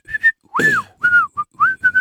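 A person whistles a short, clear tune of about eight bright notes, some held and some clipped, with slight pitch swoops, alone and without talking.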